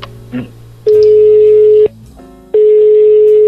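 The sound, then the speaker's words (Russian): Telephone call tones sound as a call to Ukraine is dialed: a brief soft blip, then two long, loud, steady electronic tones separated by a short pause. “давай тогда сейчас сделаем пару звонков в Украину. Я тогда набираю.”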